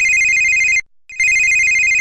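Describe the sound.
A telephone ringtone plays a loud, high, steady electronic warble for nearly a second, stops briefly, then resumes for another second. Nothing else is heard.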